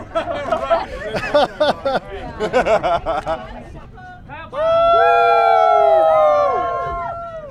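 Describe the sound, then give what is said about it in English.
Members of the Ogden pub runners group chatter and laugh together while posing for a group photo, then break into a loud, sustained cheer of many voices with long, wavering whoops that slowly fade. “What you are hearing now are the noise from a group photo of a bunch of Ogden pub runners.”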